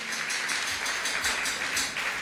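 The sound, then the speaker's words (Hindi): Applause from an audience welcoming a performer onto a folk music stage: a steady wash of clapping at moderate loudness, with a loosely pulsing texture and no voices. “तालियां हो जाए भाई”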